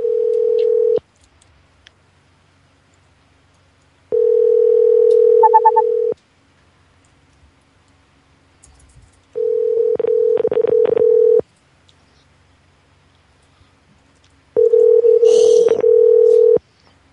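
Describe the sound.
A telephone line tone sounds as four steady, mid-pitched, roughly two-second blasts separated by silences, with a quick run of dialing key beeps over the third blast.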